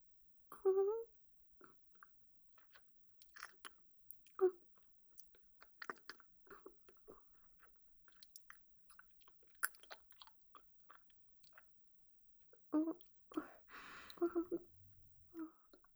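Chewing a mouthful of food before feeding it mouth to mouth: sparse, irregular wet smacks and soft crunches with brief vocal sounds and breaths, and a denser burst of chewing noise near the end.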